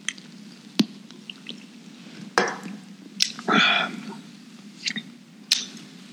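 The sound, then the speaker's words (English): A can of beer is cracked open with a sharp snap, followed by a short burst of fizzy pouring, amid a few small clicks and knocks. “Let's crack open the last beer”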